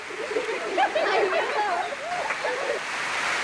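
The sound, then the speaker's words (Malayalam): Heavy rain pours down around a school building in a sudden downpour, a dense, steady, loud hiss that fills the whole clip, with a voice sounding over it. “പക്ഷെ എന്തൊരു മഴയാണിത് ഗംഗാരേട്ടാ, ആകാശം പിളർന്നൊഴുകയാണെന്ന് തോന്നുന്നു.”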